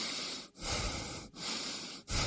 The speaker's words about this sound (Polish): Proszę oddychać. Nie oddychać. Oddychać.